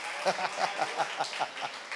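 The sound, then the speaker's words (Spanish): Audience applause, a run of steady, evenly spaced claps that continues for about two seconds, with voices mixed in. “¡Ay, dense un aplauso! Muy bien.”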